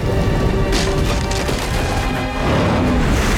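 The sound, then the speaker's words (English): Trees crash down in a mudslide as muddy water and earth burst through a hospital: a dense, continuous roar of splintering and rushing noise, loud and steady throughout with no separate impacts standing out. “Muddy black water gushes into the hospital, followed by a torrent of earth and water, which sends furniture toppling and bursts through the fragile walls. Trees come crashing down.”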